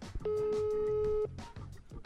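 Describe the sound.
A single steady telephone tone of about one second sounds during an outgoing call on speakerphone. The busy-line signal plays under men talking before and after it.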